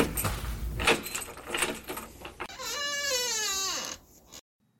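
Keys jangle as a room door is unlocked, followed by the door opening with a long, high, wavering creak that drops in pitch near its end before fading to silence.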